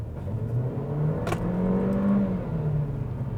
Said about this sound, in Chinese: 包含我现在急加速，这一台车它是前轮驱动啊，通常急加速的时候，它会有瞬间的打滑。